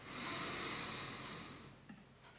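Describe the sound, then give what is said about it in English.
A long, deep inhale through the nose during a guided relaxation breathing exercise: a soft, steady airy hiss lasting over a second, then fading away, heard alone. “One more time, a nice good deep inhale through your nose.”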